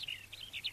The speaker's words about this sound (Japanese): ピーチクピーチク小鳥が鳴いて、